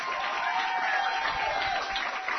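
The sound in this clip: Dense, steady applause from an audience cheering a guest at a health challenge event. It is a continuous wash of clapping with no pauses and no voices.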